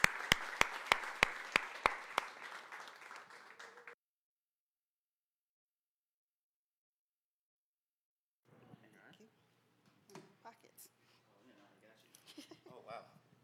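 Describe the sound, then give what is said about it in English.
Applause from a church audience welcoming two guest speakers for a Voices series event, with a few sharp claps standing out. It lasts about four seconds and then stops, and soft voices follow after a pause. “Give them a hand.”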